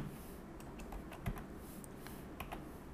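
Faint computer keyboard typing as a web link is entered: a handful of soft, irregular key clicks over steady background hiss.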